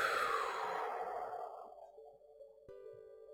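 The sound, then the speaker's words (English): A long, deep breath out through the mouth during a relaxation breathing exercise. It starts strong and fades over about two seconds, and then a soft, steady chime-like tone sounds. “breathe in again through your nose. Exhale through your mouth.”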